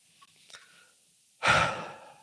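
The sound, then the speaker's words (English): A single deep breath, loud and airy, swells sharply and then fades slowly, after a few faint small mouth sounds, with no talk. “Deep breath.”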